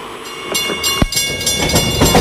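Rhythmic clatter of a train running on railway tracks: several sharp wheel clacks over a steady rolling rumble, loud and continuous with no voices.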